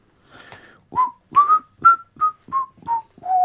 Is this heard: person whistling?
yes